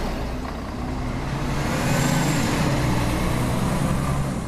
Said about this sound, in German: Nach ein paar Stunden Ruhe in Matalas Cañas fahren Einheimische und Besucher mit dem Shuttlebus nach El Rocío.